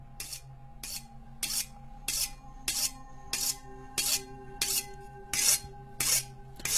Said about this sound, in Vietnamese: Nó cầm con dao, khua khua, đoạn nó liếc vào cái tảng đá mài ngay bên cạnh cái bàn inox.